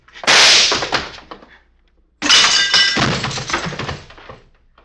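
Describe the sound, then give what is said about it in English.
Two loud gunshots in a crime drama scene, each a sharp blast with a decaying tail. The second is followed by a longer, ringing rattle. “You shot the back of Jesse's head off”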